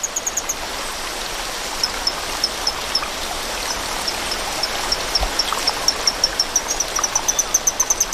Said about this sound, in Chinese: 变化叫声的效果还算不错，水流的声音还是太大了，需要更强效的措施。